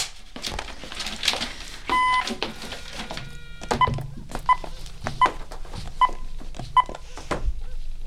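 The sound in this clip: A telephone redial button is pressed and the number dials: a short electronic beep, then a quick series of dialing tones, mixed with many sharp clicks and knocks from handling the phone.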